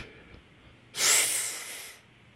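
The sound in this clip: One long, deep breath taken during a relaxation breathing exercise: a breathy hiss that swells suddenly, holds for about a second, then fades into a faint background.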